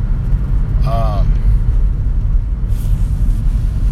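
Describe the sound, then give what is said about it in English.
A car driving through snow gives a steady, loud, low rumble of engine and road noise that runs unbroken for the whole stretch, with no clear breaks or separate events. “So I'm just driving in the snow. It's pretty great.”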